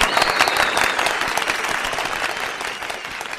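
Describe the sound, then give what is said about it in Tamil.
Dense, steady applause from a group of people, a continuous patter of many hands clapping that eases off slightly toward the end. “கைத்தட்டல்”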